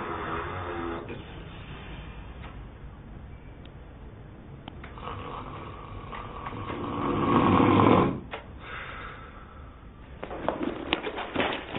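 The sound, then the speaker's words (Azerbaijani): A person snoring loudly in sleep: rough, rasping breaths that swell into a louder, noisier snore, pause, then return as ragged snorts near the end, over a steady hissy background. “Lap div kimi yatıb xoruldayır. Yazıq sima görəsən, gecələr bu xorultunun səsindən necə yatır?”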